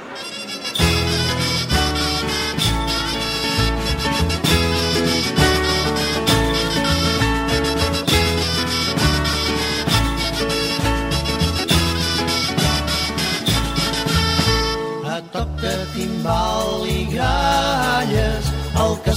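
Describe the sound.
A Catalan song about human towers and the child who climbs to crown them, with sung vocals over a bright, steady instrumental backing and a short break near the end before the music resumes.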